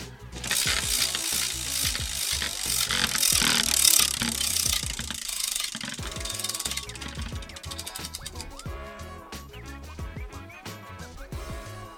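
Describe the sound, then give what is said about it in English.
A prize wheel spins and clicks, a dense, rapid run of loud mechanical ticks and ratcheting rattles that continues throughout. “I'm going to spin this wheel. Let's see what it lands on.”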